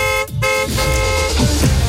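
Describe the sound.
A moped horn honks loudly: a short toot, then after a brief break a longer, sustained nasal blare.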